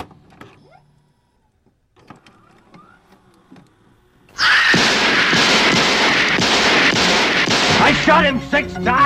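Gunshots in the Halloween 2 movie trailer: near silence with faint ticks, then a sudden loud onset about four seconds in, followed by a rapid run of repeated blasts over a dense, sustained roar.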